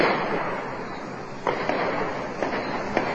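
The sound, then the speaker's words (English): Gunshots in a barrage outside a courthouse, during a shootout with a gunman: several sharp, dry cracks at uneven intervals over a steady hiss of background noise, none of them very loud. “A barrage of shots were then heard outside the courthouse.”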